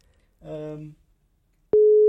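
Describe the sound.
A telephone call signal tone: after a brief voiced sound, a steady single-pitched electronic tone starts abruptly and holds loudly to the end.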